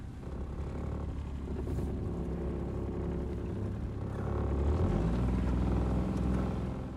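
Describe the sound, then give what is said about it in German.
A small wooden family boat on the Danube near a Romanian village makes a steady, low engine drone. The sound grows somewhat louder and fuller past the midpoint. “fährt mit dem kleinen Holzboot der Familie die Donau entlang.”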